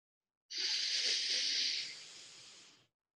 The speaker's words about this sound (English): Going at your own pace here with your own breath. Really drawing that air in.